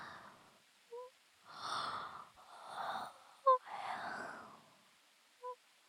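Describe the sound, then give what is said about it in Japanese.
A sleepy person's yawn, soft breathy drawn-out exhalations in a few long swells, faint, with small sharp clicks between them. “すいません、普通にあくびしちゃいました。”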